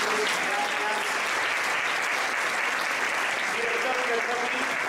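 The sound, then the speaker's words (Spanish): Audience applause for a panel of experts: dense, steady clapping that fills the whole stretch at an even, loud level, with faint voices mixed beneath. “Un fuertísimo aplauso para este maravilloso panel de expertos.”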